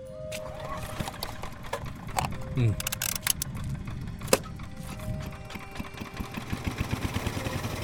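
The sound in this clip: A generator is started by pulling its cord and settles into a rapid, steady chugging putter over a constant noisy hum, with people talking during it.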